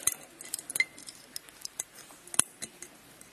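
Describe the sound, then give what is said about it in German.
A coffee container being closed, with a string of faint, sharp, irregular clicks and scrapes and one louder snap past the middle. “So, ich muss jetzt hier aber mal eben wieder verschließen. Ich fühle mich gerade so wie so einer Kochsendung, weil das ist ja Kaffee hier.”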